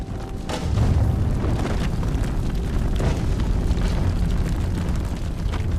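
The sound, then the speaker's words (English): An explosion blows out the side of a building after a blast exposes a fuel cell in the wall. A dense, roaring rumble swells just before one second and holds steady to the end, with crackling bursts scattered through it. “Blast takes out the whole side of the building.”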